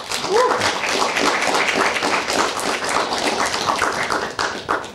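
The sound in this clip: Audience applause greets a guest on a Kazakh-language talk show, a steady, fairly loud patter of clapping hands with a voice briefly heard over it near the start.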